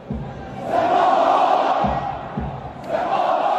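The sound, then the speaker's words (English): Iranian football fans in Isfahan cheer for home club Sepahan before kickoff against Saudi side Al Ittihad. Their loud, swelling roars rise and fall, with a few low thuds beneath. “Iranian fans in the city of Isfahan cheered for home club Sepahan before a recent kickoff.”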